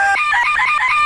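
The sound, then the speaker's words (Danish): Sampled rooster crow played back on an old sampler: a short, high, wavering harmonic cry broken into a quick series of rhythmic pulses, loud and alone, lasting about a second. “jeg har simpelthen proppet en hane ind i den, så det lyder sådan her.”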